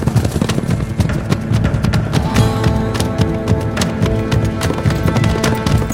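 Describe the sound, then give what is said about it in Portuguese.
Rapid hoofbeats of a horse galloping across the dry Brazilian backland: a loud, dense, steady drumming of hooves that runs without pause through the whole stretch. “Cabeleira percorre o sertão a galope.”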